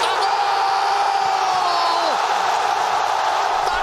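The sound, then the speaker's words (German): A crowd roars in the nearly sold-out Zbrojovka Brno football stadium during a match against Sparta Prague, a dense and steady wall of cheering laced with whistles. “Großer Andrang im Stadion von Zbrojovka Brünn und großer Jubel.”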